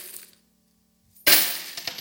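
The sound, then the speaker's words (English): Coins drop into a coin jug: one bright metallic clatter breaks a near-silent pause, followed by a couple of softer clinks, all fairly faint. “these are not gold, silver coins. I'm just creating an ambiance here within this.”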